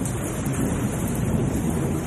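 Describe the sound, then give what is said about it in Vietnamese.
Heavy pouring rain makes a dense, loud, steady roar of water that stays constant without any breaks. “Trời mưa như chút từng cơn nước.”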